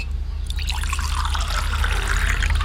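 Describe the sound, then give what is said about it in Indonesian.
Tea poured into a cup as a continuous liquid trickle and splash that grows slightly fuller, over a steady low hum. “Saya buatkan teh untuk abang”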